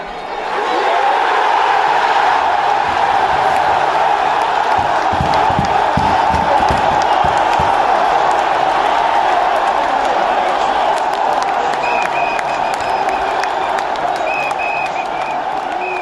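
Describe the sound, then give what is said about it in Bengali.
Thousands of football fans cheer a win in Melbourne's Federation Square after watching the match on a big screen at night, a loud, steady roar of voices mixed with clapping that holds throughout. “জয়ের উল্লাসে আর শব্দে কেঁপে ওঠে পুরো এলাকা”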